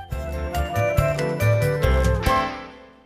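A short melodic chime marks a page turn in a children's storybook. A few bright, ringing notes play in quick succession, then the last one rings out and fades away.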